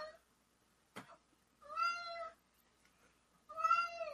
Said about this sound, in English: I apologize for any cat noises you're hearing.